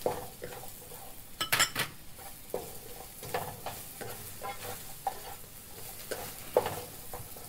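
Vegetables including carrot stir-fried in a pan: a steady sizzle runs under repeated scraping and clinking of a utensil against the pan, with a few sharper metallic knocks scattered throughout.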